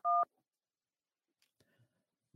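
A single telephone keypad tone from pressing 1 to accept an incoming international call: a short, loud, steady dual-pitched beep, followed by near silence with a few faint clicks.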